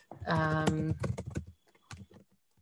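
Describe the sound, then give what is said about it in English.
Keyboard typing as someone enters a message into an online chat: a few light, quick key clicks following a brief stretch of speech. “Hold on. I'm writing in the chat so I don't forget, because I will forget after.”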